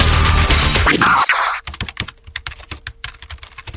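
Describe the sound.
Quick, uneven clatter of computer keyboard keys as someone types a review of a yeast strain. Many crisp clicks follow a loud noisy passage that cuts off abruptly.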